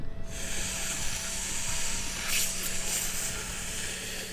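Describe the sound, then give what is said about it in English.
Someone sucks on a vape, making a steady, airy hiss that holds for about four seconds with a brief, brighter surge partway through. “That was the sound of Napoleon Bonaparte sucking on a vape.”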